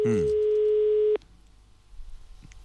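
A ringback tone sounds during an unanswered telephone call: one steady, mid-pitched buzzing tone holds for about a second and then cuts off, leaving faint low background noise.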